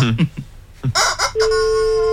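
A squeezed toy chicken squawks in a few harsh, nasal honks in quick succession, loud and grating.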